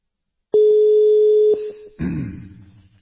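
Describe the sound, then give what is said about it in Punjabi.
Telephone tone on a call placed to a guest, a steady single-pitched electronic tone holding for over a second before it breaks off and gives way to a rougher, fading sound. “ਲਓ ਜੀ ਲਓ doctor ਸਾਹਿਬ ਨੂੰ ਕਾਲ ਕਰ ਦਿੱਤੀ”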